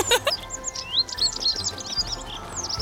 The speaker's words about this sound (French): Bon appétit, chers oiseaux.